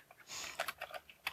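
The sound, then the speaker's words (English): Typing on a computer keyboard: soft, quick keystrokes land in an irregular patter, some clicks sharper than others, with no voices present. “but you can just start typing. And you just select the characters and the colors with the keyboard”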